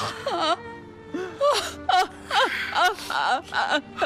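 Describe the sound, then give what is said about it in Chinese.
A woman wails and sobs in many sharp bursts, her voice sliding up and down in pitch with gasping breaks between each loud, anguished cry. “妈，您先别哭。”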